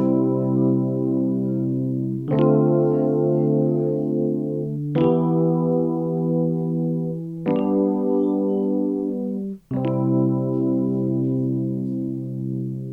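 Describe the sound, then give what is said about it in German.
Electric piano run through distortion and reverb effects, playing five sustained, buzzing chords, each held for about two seconds with a bright attack at every change. “Bisher hatte ich ja stets dünne und neutrale Sounds als Basis verwendet, aber was passiert, wenn ich zum Beispiel mal einen E-Piano-Sound wie diesen hier nutze?”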